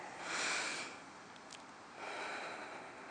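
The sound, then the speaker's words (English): A deep breath drawn in through the nose, then released slowly through the nose, during a guided breathing exercise with eyes closed; two long, soft, airy hisses with a brief lull between them and no talk. “we're going to take a deep breath through our nose, and when you release it through your nose, you're just going to smile”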